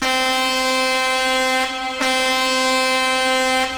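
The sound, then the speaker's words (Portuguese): A trucker's air horn blares in one long, steady, harmonically rich blast. It dips briefly near the middle, then holds loud almost to the end. “buzinando aí pra mim, pra nós aqui da boa, cadê os caminhoneiros? Lá começar o conto. Meus queridos carreteiros.”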